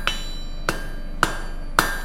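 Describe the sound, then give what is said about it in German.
A hammer striking metal in a metalworking restoration shop: four sharp, evenly spaced blows, each with a short metallic ring, over a quiet, steady background hum. “He krabt und schlippt. He kloppt.”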